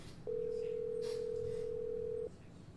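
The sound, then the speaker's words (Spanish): A telephone rings on an unanswered call: a single steady, even tone of about two seconds that starts and stops abruptly, heard alone over faint background hiss. “Ahí está timbrando nuevamente el teléfono.”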